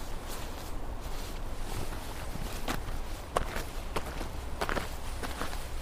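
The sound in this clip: Footsteps walk around behind a house, a steady series of soft steps with a few sharper scuffs over low background noise, no voices.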